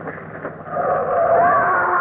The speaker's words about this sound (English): Come on, watch out. There's a car coming.